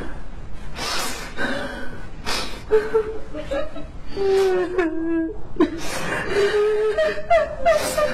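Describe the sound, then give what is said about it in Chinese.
A person cries sadly, with breathy gasping sobs alternating with wavering, high-pitched whimpering wails that rise and fall over several seconds, fairly loud throughout. “你莫哭了啦！你哭这么伤心，我心里看着都好难受的”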